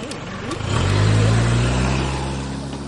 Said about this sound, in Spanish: Bond le da las llaves. El hombre sube al coche y se lo lleva.